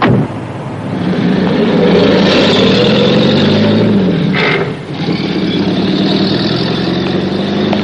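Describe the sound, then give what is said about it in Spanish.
A car engine rumbles as the car pulls away from the curb: a loud, steady, low drone that dips briefly partway through before resuming at the same level. “Floyd vuelve al coche y Hooker queda en la acera viéndoles partir.”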